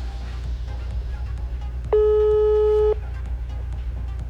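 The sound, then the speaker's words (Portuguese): A telephone ringing tone sounds during an outgoing call: one steady, clear beep about a second long, sitting over a low background hum. “Tava ligando. Vou dar essa oportunidade. Agora tá chamando.”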